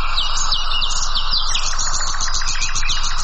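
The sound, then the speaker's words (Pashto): Birds chirping and singing outdoors in nature, the kind heard in gardens and village countryside: many bright, quick overlapping tweets and trills run continuously and fairly loud throughout, with no voices. “هلته یې په ځانګړي ډول د مرغانو غږونو ته ورپام کېږي، خو داسې ښکاري چې دا اوازونه له طبیعته په کمېدو دي.”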